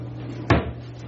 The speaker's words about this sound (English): Put that in the oven. Close that up.